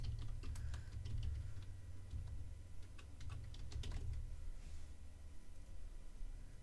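Typing on a computer keyboard: a steady stream of many light, quick key clicks in an uneven rhythm over a low, constant hum.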